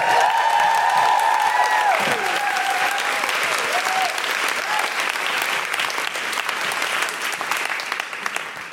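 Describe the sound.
Audience applause welcoming a stand-up comedian to the stage at a comedy show, a loud, sustained wash of clapping from a crowd that continues steadily for the whole stretch and eases slightly toward the end.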